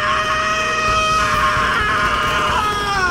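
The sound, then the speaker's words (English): A man's sudden, loud scream as he bolts upright in a spacecraft's medical bay, tearing off wires and sensor pads. The cry is harsh and sustained, holding strong for about three seconds without a break. “the interior of the Zephyr exploded with the sudden scream of Gregor Roginski”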